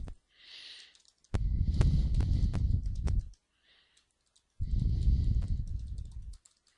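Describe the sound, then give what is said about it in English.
Typing on a computer keyboard comes in two dense bursts of rapid, crisp key clicks separated by a short pause, with no talking. “We type that here.”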